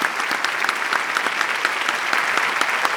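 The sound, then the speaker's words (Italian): Audience applause for a group of young performers: many hands clap in a steady, even rhythm, with individual claps standing out in the sustained wash of sound. “gentilmente a questo meraviglioso pubblico di fare a questi ragazzi un grande, grandissimo applauso”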